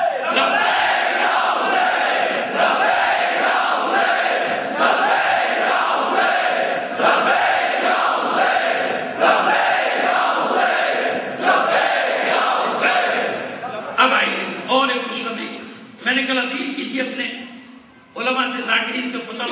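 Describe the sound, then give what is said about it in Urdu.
Crowd chanting a religious slogan, 'Labbaik ya Hussain', in reply: loud, massed voices repeat in steady rhythmic cycles, turning more ragged and broken near the end. “آپ نے آواز دی تھی، انہوں نے جواب کیا تھا لبیک یا حسین، اب آپ بھی وہی نعرہ لگا کے جواب”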